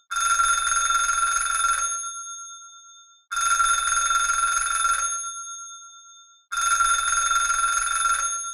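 Telephone ringing with an incoming call on a sports call-in line: three long, bright, bell-like rings, each lasting about two seconds and fading off, separated by short silent pauses, with no voices.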